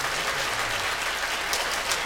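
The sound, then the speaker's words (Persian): An audience at a devotional gathering claps together in a dense, continuous wash of applause that holds an even level throughout. “دست رو بیار بالا، منم برم بالاتر یه ذره، یه کف مرتب بزنید.”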